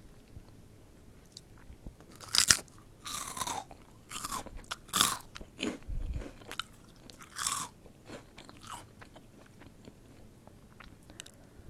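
Crunchy chewing of Calbee Saya-endo fried pea snacks: many sharp, brittle crunches and bites in irregular bursts over quiet pauses, with softer mouth sounds between them.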